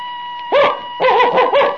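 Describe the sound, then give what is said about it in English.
A person imitates a dog barking, giving a few short, yapping barks with wavering pitch over a steady faint tone. “If I told you to bark like a dog,”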